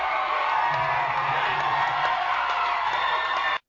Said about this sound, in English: All like 40 people in the audience are stoked.